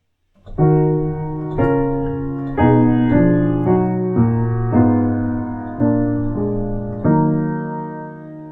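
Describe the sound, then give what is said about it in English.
Piano plays all the voices of a polyphonic choral piece together as a slow series of full chords, each new chord struck cleanly, then ringing and gradually fading before the next, with no talk. “And now I will play all the voices together on the piano here.”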